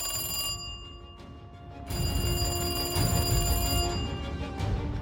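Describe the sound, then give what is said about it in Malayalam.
A landline telephone rings in repeated bursts of bright, high, tonal ringing with a steady pulse, separated by short gaps. The ringing is heard alone, with no voices. “അപ്പോൾ അവർ മൂന്ന് പേരെയും ഞെട്ടിച്ചുകൊണ്ട് land phone ശബ്ദിച്ചു”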